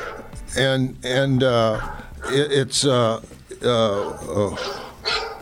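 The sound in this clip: Loose dog barking: many loud, tonal barks and yelps in quick, uneven bursts.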